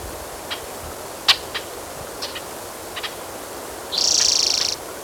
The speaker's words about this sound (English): There's blackbirds.